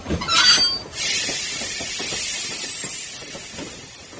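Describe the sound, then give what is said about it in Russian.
A metro train pulls into a platform and stops: a brief screech, then a loud, sustained hiss that slowly fades as the train comes to rest. “Впереди прорезался свет. По обе стороны стали наплывать узкие платформы. Матово засияли голубым и белым гладкие стены. И поезд остановился.”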